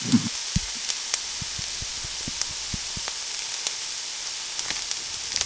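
Garlic in butter, with merlot added, sizzling in a frying pan: a steady hiss broken by scattered small pops and crackles.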